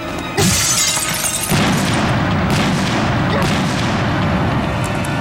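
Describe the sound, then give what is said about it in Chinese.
A bomb explosion hits with a sudden loud blast, and a second heavy boom follows about a second later. A sustained roaring rumble with shattering debris noise runs on to the end. “不对，有炸弹，快躲！”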